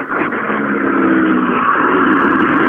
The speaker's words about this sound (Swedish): Nu har vi bil på ingång och det är Volvo 240 som är på vägen. Det är en Volvo 240.